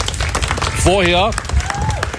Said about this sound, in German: Das ist ein Applaus schon mal wert.